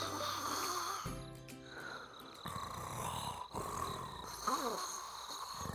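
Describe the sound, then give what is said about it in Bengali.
Snoring from people asleep at night, heard alone as a few rough, rumbling breaths of steady loudness with snorting edges and no talk. “নিজেরাই নাক ডেকে ঘুমাচ্ছ”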